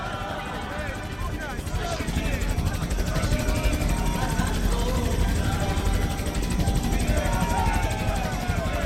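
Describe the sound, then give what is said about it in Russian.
A helicopter in flight over a calm ocean gives a dense, steady roar of rotor and engine noise that stays loud and continuous from start to end. “Вертолет летит в воздухе.”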